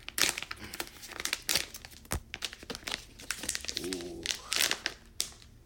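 A crinkly bag of sour candy being opened: sharp bursts of plastic crinkling and rustling in irregular clusters, with a brief vocal sound partway through.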